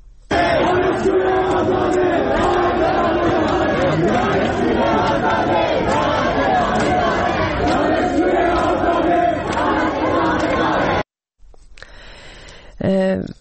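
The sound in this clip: Students at a gathering at Khajeh Nasir University in Tehran shout and chant together as a loud, dense crowd for about eleven seconds. The noise then cuts off abruptly, giving way to a quieter, sparser stretch.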